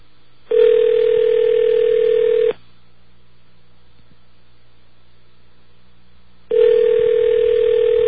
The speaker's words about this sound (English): A lot of rings.